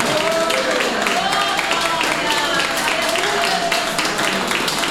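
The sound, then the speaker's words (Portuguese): Applause from an audience at a church service, a dense and steady wash of clapping mixed with raised voices that holds at an even level throughout. “Palmas para Jesus.”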